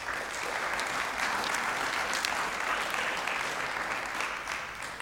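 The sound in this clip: Audience applause welcoming a speaker, an associate pastor, at a Springfield gathering: dense, steady clapping holds at full strength for several seconds and eases slightly at the end.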